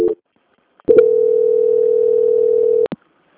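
A telephone line tone plays while a phone call is being transferred. A brief tone is followed after a pause by a steady, single-pitched hum lasting about two seconds, which ends in a click and a short blip.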